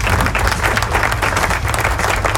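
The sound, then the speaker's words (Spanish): Applause in a radio studio, dense continuous clapping that stays loud and even throughout with no voices over it. “Aplauso.”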